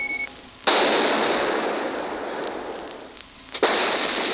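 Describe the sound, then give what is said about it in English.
Heavy fleet bombardment of a city on the moon: a long roaring wall of explosive noise rolls for nearly three seconds, briefly eases, then a second sharp-onset blast surges in, with no voices. “Lieutenant Commander Donahan and Captain Sirocco observe the fleet's terrific bombardment of Von Braun.”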